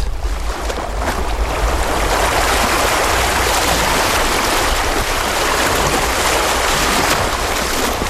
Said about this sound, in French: si tu n'entends que le bruit des vagues, c'est que ta radio fonctionne parfaitement.